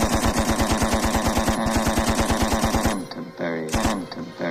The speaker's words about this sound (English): I'm going to line you all up against the wall for the Canterbury firing squad. One each.